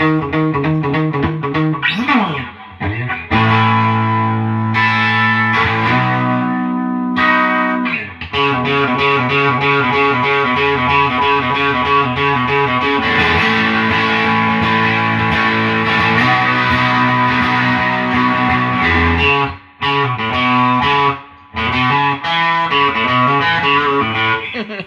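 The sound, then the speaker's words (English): Distorted 1970s-style electric guitar playing rock and roll, a loud, continuous run of overdriven chords and riffs with a few brief breaks, with no talk over it. “This guitar is straight up 70s. I'm going to play my rock and roll on this.”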